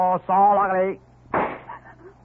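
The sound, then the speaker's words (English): A bandit leader fires a warning gunshot: after a short stretch of voice, a single sharp crack lands, followed by a brief ringing tail. “Leader, shoot off gun to show you he mean what he say.”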